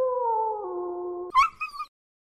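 A wolf howls from a hilltop: a steady, loud, drawn-out cry that stops abruptly and is followed at once by a few short, sharp, high-pitched yelps of a dying animal.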